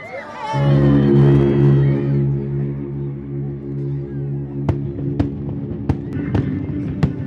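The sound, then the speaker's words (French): Fireworks go off as several sharp cracking bangs in the latter half. A steady droning tone and crowd hubbub run underneath throughout. “C'est un mélange de couleurs entre le rouge, bleu et flamme. C'est un feu d'artifice d'enfer. D'enfer, c'est le mot. Et ça pète dans tous les sens.”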